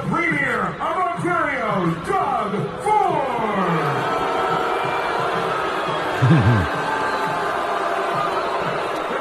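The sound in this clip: A crowd gives Doug Ford a mixed reception at a public presentation, with loud shouts and drawn-out jeers rising over a continuous crowd roar.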